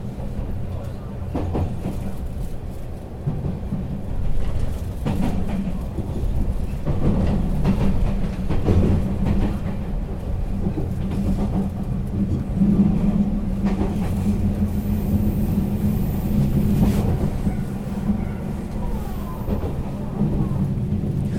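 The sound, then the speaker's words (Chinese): A traditional old-style electric commuter train starts up and runs along the rails, a steady low rumble with scattered rattling clanks that continues throughout. “真的啦，我觉得比传统的比那个新式的车真的还要有 feel， 这比较有人情味，真的听听看哦。”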